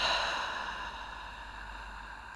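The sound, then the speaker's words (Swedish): A slow, deep exhale through the mouth: a soft, steady breathy rush that begins at its strongest and gradually fades over about two seconds, with no talking. “Vi andas in och släpper långsamt ut luften genom munnen.”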